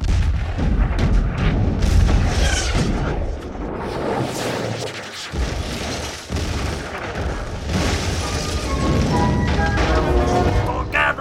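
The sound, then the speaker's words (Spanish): A ship's starboard cannon battery firing in a radio drama effect: heavy booming blasts and crashing rumble rolling almost continuously, loud, with a brief dip partway through. “¡Capitán! ¡Los tenemos a tiro! ¡Batería de estribor! ¡Fuego!”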